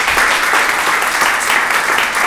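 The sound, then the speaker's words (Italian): Dense, steady applause from an audience at the close of a round-table event. Many hands clap together at an even, sustained loudness with no voices over it. “Un grande applauso, grazie di essere stati con noi.”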